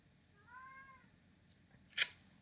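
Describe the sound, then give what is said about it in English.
A food-obsessed cat gives a single faint, drawn-out meow while waiting for its meal, then a brief sharp noise follows a moment later. “If you can hear that crying in the background, that's my food-obsessed cat who knows when his lunch is to the minute.”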